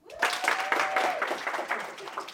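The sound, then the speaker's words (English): Audience clapping on request during a talk about creating content, a dense, steady patter that holds across the whole clip with some voices mixed in. “Everybody clap.”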